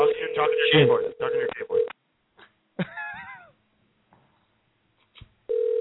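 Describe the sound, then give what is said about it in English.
A telephone being dialed for a crank call: a steady tone sounds under loud group talk at the start, then after short pauses and scattered noises another steady tone returns at the end. “Okay, here we go. We're dialing.”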